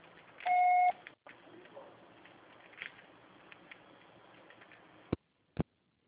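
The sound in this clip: A single loud, steady electronic beep from a telephone answering machine, under half a second long, followed by faint line hiss, a few soft ticks and two sharp clicks near the end.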